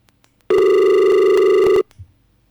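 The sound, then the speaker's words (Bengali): A telephone tone from a call that keeps cutting off: one loud, buzzy, harmonic-rich tone lasting just over a second, starting and stopping abruptly, followed by near silence with a faint low thump. “ফোনটা বারবার কেটে যাচ্ছে।”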